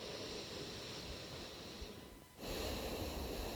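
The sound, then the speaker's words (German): Breathing in and out through the left nostril while the right one is held shut gives a continuous airy, snuffling rush, a brief dip, then a stronger second breath. “Und jetzt hältst du mal das rechte Nasenloch zu und atmest nur links ein und aus.”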